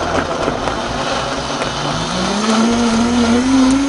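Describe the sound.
A blender grinds a pineapple juice drink with its lid on, a loud, steady motor roar whose whine climbs in pitch in the second half.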